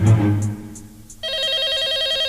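A telephone rings with a continuous warbling electronic trill that starts partway through, after a brief lower tonal sound.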